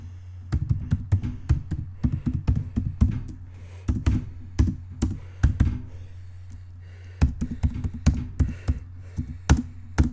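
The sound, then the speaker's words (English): A laptop keyboard is typed on while resting on a desktop table, giving bursts of quick clicking keystrokes with soft thumps, separated by short pauses. “so see, it rolls, and as you can tell, now if I type,”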